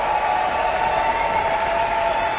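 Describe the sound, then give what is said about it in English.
Dense, sustained applause from an audience for an orchestra conductor and his musicians at the Aspen Music Festival, a steady, loud wash of clapping with no breaks. “Our conductor has returned to wild applause and some screaming.”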